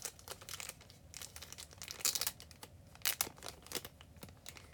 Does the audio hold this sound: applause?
no

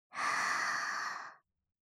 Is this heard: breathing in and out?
yes

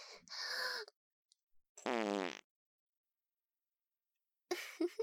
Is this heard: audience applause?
no

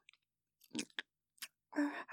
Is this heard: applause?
no

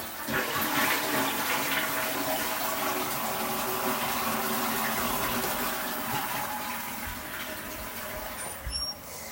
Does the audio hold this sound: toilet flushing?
yes

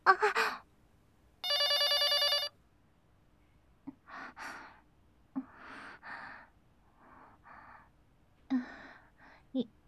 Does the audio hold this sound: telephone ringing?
yes

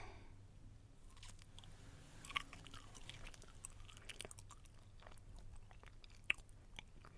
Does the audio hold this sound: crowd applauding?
no

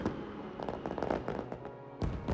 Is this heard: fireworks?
yes

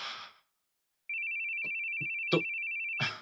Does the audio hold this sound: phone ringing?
yes

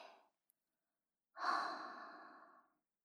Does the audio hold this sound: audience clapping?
no

